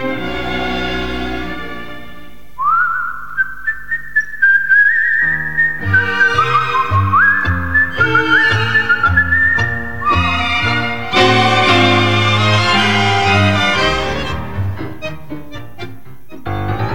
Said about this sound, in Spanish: y un reo meditabundo va silbando esta canción